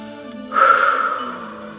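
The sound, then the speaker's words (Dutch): A single breath taken during a guided breathing exercise, in through the nose and out through the mouth. It is a brief, airy rush of air over a soft, steady musical drone. “Adem 2 keer in via je neus, in via je mond uit.”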